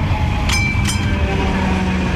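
A tram pulls in to a stop with a steady, loud rolling rumble. Two brief high-pitched squeals or chimes cut through early on, and then the drone continues evenly.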